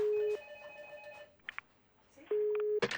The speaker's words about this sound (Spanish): me está llamando